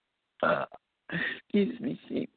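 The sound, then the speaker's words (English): Belching from a man reading aloud, a few short gulping burps, the last a longer voiced, croaking belch, all fairly loud with brief pauses between them. “I don't know why I have to belch when I start reading, but I am belching now.”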